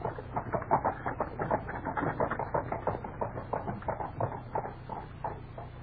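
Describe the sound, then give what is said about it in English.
Hooves of horses pulling a coach clatter in a steady, even clip-clop, with many muffled beats in a brisk running rhythm at moderate loudness and no voices. “Only tell that false coachman to whip the horses up.”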